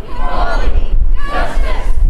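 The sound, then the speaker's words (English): A crowd at a memorial gathering breaks into a unison chant of a short slogan after a moment of silence. Two loud surges of massed voices mix with wind noise on the microphone. “As the moment of silence ended, chants rippled uphill through the crowd. Love, equality, justice, love.”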